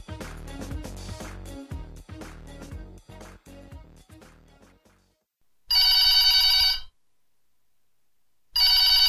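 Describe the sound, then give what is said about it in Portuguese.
Telephone ringing: two loud electronic ring bursts, the second cut off at the end, following a fading stretch of other sound and a short silence. “vai atender o telefone, mano.”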